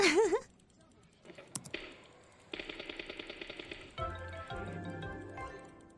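Gunfire in a shooting video game: a rapid run of a dozen or so repeated shots, with synthetic electronic tones and other game sounds around it.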